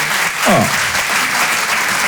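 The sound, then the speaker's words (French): An audience applauds a couple married for 51 years. The clapping is dense and steady, filling the whole stretch at an even level. “Oh, on peut les applaudir.”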